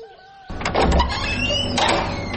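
A door swings open: after a quiet start, a sudden loud scraping rattle begins and carries on to the end, streaked with a few thin squeaky tones.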